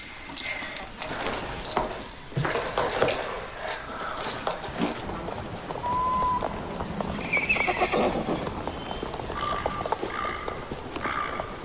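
Hooves clip-clopping as several horses are ridden along a mountain road, a steady clatter with whinnying, set against dense background noise.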